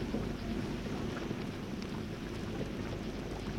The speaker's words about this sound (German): Das Rauschen des Regens entspannt meine Nerven